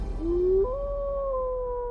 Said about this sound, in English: off in the distance, you hear a wolf howl.